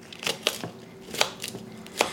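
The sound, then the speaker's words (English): Leaves are trimmed off the bottom of a medium-sized cauliflower head with several crisp cutting snaps and crunches, irregularly spaced, some in quick pairs. “And before that, though, I'm gonna trim off the leaves. So I'm gonna take the leaves off the bottom.”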